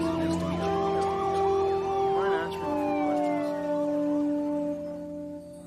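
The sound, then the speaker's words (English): An ambulance siren wails as emergency vehicles drive down the street. Its sweeping pitch rises and falls over a steady tone, and it grows fainter near the end. “A paramedic closes the door and the ambulance drives off.”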